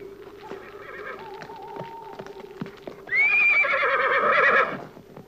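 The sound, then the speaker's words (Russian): A horse neighs loudly as it is ridden away at a gallop, giving one long, high whinny. Scattered hoofbeat clatter comes before and during the whinny. “Командир белогвардейцев хватает шашку, выбегает из палатки. Садится на коня и уезжает.”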